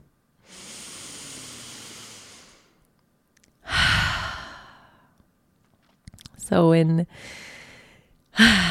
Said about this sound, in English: How about a deep breath?